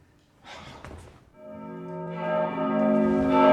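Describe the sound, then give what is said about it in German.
The church bell of San Marco rings in sustained, resonant tones that build steadily in loudness after a brief breathy sound at the start. “Die Glocke von San Marco! Er ist nicht verdammt!”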